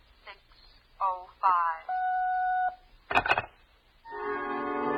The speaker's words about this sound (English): I wasn't sure my watch was right, so I dialed for the correct time.